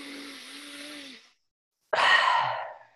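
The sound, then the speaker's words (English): Deep breaths drawn in by a group on a count during a breathing exercise: two long airy breath sounds separated by a short silence, the second a louder rushing burst that slowly fades. “let's all take a moment to heavily breathe in. So 3, 2, 1.”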